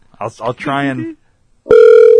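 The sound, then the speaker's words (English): A phone call rings out. After a short burst of speech, a steady electronic ringback tone starts abruptly and holds loud and unchanging to the end. “Call Katie one more time. Katie. All right. This time, if she doesn't answer, we're going to the voicemail.”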